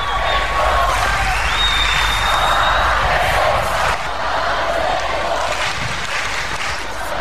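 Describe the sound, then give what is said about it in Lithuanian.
A young crowd chanting for Pope Francis at a church gathering: a loud, continuous roar of many voices with no clear breaks, with faint whistle-like tones above it. “Jeigu gerai girdžiu, Francesco skanduoja jaunimas. Taip, iš tikrųjų jaunimas sako Francesco, Papa Francesco.”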